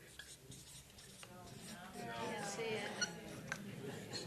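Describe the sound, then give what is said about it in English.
Chalk or marker scratches across a board during a lecture. The strokes are faint and scratchy, with occasional thin squeaks and a few sharper taps. “They told me I should write on the board, so I look learned here.”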